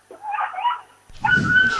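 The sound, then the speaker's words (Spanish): A dog whimpering in the rain beside a street protest concert, wanting to leave: thin, high whines rise and fall for the first half, then a steadier whine continues over louder, rougher noise. “¿Estáis matando a un gato aquí detrás o...? No, es un perrete, pobrecito. ¡Ay, el perrete!”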